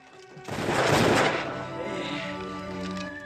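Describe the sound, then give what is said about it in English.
A gunshot as Charlie fires in a tense standoff: one loud, sudden blast with a rough, rumbling tail that fades slowly over sustained background tones. “Shoots and Charlie reloads.”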